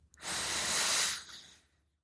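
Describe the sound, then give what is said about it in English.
A deep, long breath taken at the start of a guided prayer, heard as a single loud, airy hiss that swells, holds for about a second and then fades away. “Just take a deep, long breath.”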